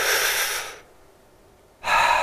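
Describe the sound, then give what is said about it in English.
A deep diaphragm breath in, a loud airy rush of inhaled air that fades into near silence, followed by the start of another strong breath after a short pause. “you put your hand on your stomach and you push out with your stomach when you breathe in”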